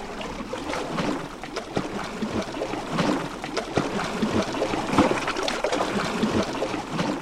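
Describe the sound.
Water swishes and churns as a monster swims through it in a video game: a steady, busy wash of splashing that stays even throughout.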